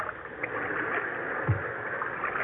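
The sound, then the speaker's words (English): Oars splash and water washes as islanders row boats out across the water toward a ship anchored off the islands, a steady watery wash with one stronger splash midway. “They dropped anchor off the islands and waited for the islanders to come out in boats. Look at them coming out in boats, Captain.”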